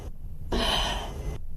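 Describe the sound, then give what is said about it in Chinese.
A single breath drawn in before mouth-to-mouth rescue breathing during a CPR demonstration, a soft airy rush lasting under a second, faint against a low background hum. “给人工呼吸的时候，一定要把气道拉开，这手呢要压住病人的额头，这个两个手指捏住病人的鼻子，用你的嘴包住病人的嘴，吸一口气。”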